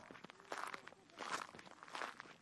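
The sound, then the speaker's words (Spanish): Footsteps of someone walking toward huts in a village: a series of soft, crunching steps at a steady pace, faint and alone over low background hiss. “comenzó a andar hacia las cabañas”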